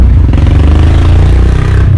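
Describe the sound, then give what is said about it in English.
A motorcycle passing outside gives off a loud, steady low engine rumble with a slightly rattling texture that holds for the whole stretch without any talk over it. “right now, there's a motorcycle.”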